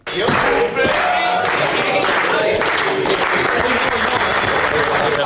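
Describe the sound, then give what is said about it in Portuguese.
Spain's national football squad sings happy birthday with applause, heard as loud, dense clapping mixed with group voices that runs without a break from start to finish. “Num vídeo publicado pela Federação Espanhola, pode escutar-se um momento em que o plantel de Espanha canta os parabéns ao jogador do Sporting.”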